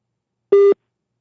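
One short, loud, steady electronic tone from a telephone line, like a single pulse of a busy signal, heard on a radio call-in line after a caller's connection dropped, alone with silence around it.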